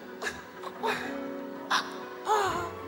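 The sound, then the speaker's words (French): A voice imitates exaggerated crying in the style of American films: four whimpering sob bursts, each rising from a breathy gasp into a wavering tone. “C'est comme ça qu'ils pleurent dans les films américains. Je pleure en anglais, là.”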